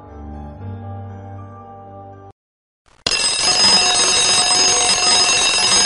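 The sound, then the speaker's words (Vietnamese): A prison alarm bell bursts into loud, continuous ringing after a brief silence. Before it, a softer sustained tone plays. “tiếng chuông báo reo vang cả nhà tù.”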